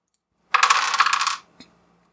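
Dice are rolled during a tabletop monster-hunting game, giving a quick rattling clatter that lasts about a second before one faint click as they settle. No voices are heard.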